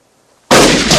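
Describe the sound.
A rifle shot fired at a man crawling through the dirt: a sudden, very loud blast breaking near silence and ringing on as a broad, heavy roar.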